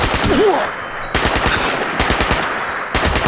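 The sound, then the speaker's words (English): Automatic weapon gunfire in a video game: several loud, sustained bursts of rapid shots, each separated by a brief gap and starting again abruptly. “Other note to self, learn how to shoot with automatic weapons.”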